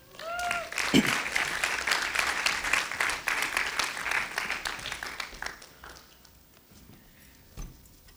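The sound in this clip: An audience applauding to welcome a guest speaker onto a stage: steady, dense clapping from many hands for several seconds, then fading out to a few scattered claps.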